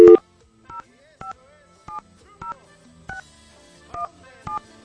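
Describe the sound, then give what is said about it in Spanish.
A telephone keypad number being dialed as a string of separate touch-tone beeps at a fairly even rhythm. The first tone is the loudest. Faint low background sounds fill the gaps between beeps. “Se me van a desgastar los dedos de tanto marcar aquí estos números telefónicos.”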